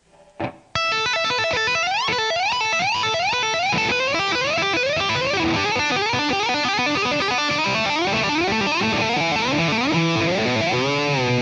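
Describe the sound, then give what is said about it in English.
Distorted electric guitar tapping, with a finger sliding up the frets and pulling off high on the neck, makes many loud rising glides in a fast, continuous run after a short opening note. “you tap and slide your finger all the way up the frets, and you kind of pull off at an undetermined location. You just pull up somewhere high on the neck.”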